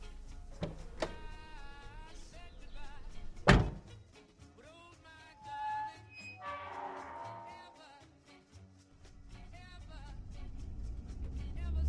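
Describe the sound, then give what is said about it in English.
A gate being opened at a field: one loud, heavy thunk, then softer clattering and a brief squeal over steady low background noise. “Would you get out and open the gate there?”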